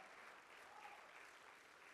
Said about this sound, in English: let's give the Lord a hand clap of praise today